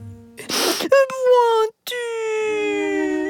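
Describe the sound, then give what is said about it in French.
A little turtle character is crying, starting with a breathy, gasping sob. Two long, loud wailing cries follow, each sliding slowly downward in pitch and separated by a brief silence. “Arrête de pleurer. Ne sois pas triste.”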